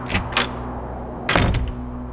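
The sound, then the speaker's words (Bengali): A door is shut in a house at night: a couple of light clicks, then a heavier clattering thump and two quick short taps, over a steady low hum. “ঘরে নিয়ে এসে দরজা বন্ধ”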